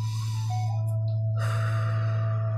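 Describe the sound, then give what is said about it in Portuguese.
A deep inhale through the nose: a soft, airy breath that swells partway through, heard over steady droning tones. “Você respira profundamente, inspira pelo nariz.”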